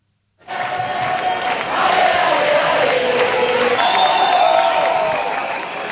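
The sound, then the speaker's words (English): Crowds protest across Spain over the housing crisis, shouting and chanting together. The loud, dense roar of many voices rises in at once and holds steady throughout, swelling slightly partway through. “So that's the sound of days of protests across Spain over the country's housing crisis.”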